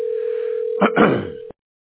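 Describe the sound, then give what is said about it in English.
A steady, mid-pitched telephone line tone sounds alone for about a second and a half as a call connects before voicemail. A short burst of noise breaks in near the end, then the tone cuts off into silence. “Your call has been forwarded to voicemail.”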